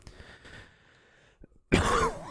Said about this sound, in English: I'm sorry, I'm still getting over this cough.